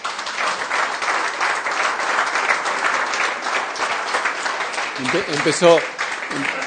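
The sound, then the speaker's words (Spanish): Applause from an audience after a talk on faith and solidarity: a steady, sustained wash of clapping throughout, with a voice speaking briefly near the end. “Empezó a aplaudir”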